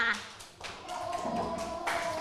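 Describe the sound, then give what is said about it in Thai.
Clapping from a classroom of children applauding a group of girls, a short burst of dense, fairly even hand claps lasting about two seconds, with faint voices underneath. “ปรบมือให้กลุ่มเด็กผู้หญิงค่ะ”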